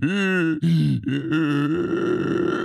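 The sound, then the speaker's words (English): A human voice imitates an asthmatic person out of breath, making loud, strained groans and grunts in a few uneven bursts with brief gaps between them. “Why are you out of breath, bro? Can't you keep up? Come on. This is what you sound like.”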